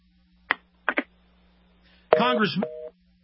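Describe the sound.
Telephone line noises on a call that has dropped: three sharp clicks, then a brief garbled voice fragment and a short steady two-pitch tone before the line goes quiet.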